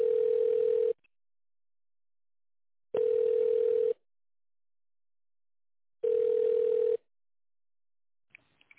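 A telephone line tone sounds while a call is being connected: three steady, single-pitched beeps, each lasting about a second, evenly spaced with silence between them.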